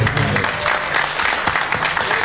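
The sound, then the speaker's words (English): An audience gives a round of applause for a guest near the end of a live event, with many hands clapping in a thick, steady wash at a fairly loud level. “Can we just give John a round of applause?”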